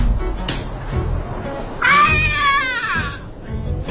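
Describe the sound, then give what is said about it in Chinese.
A stray cat that has just been hit lets out one drawn-out, wavering meow, loud and strained over steady background noise. “你看，都砸着野猫了。”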